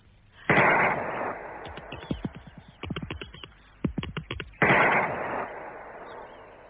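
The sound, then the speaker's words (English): Gunfire from someone shooting at a creature in a garden: two loud, broad blasts a few seconds apart, with a quick run of sharper cracks between them and no voices. “Put your fingers in your ear. Yes. I'm going to shoot the top of it.”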